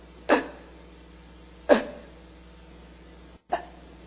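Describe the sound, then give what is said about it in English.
A voice imitates labored, struggling breathing with three short, sharp gasping bursts about a second and a half apart, each a strained rush of air. The last gasp is briefer, and there is no talking. “every breath that you take, you have to fight and struggle to get even the tiniest bit of air. And I'll just try to describe to you, I'll show you how I had to breathe. It was like this.”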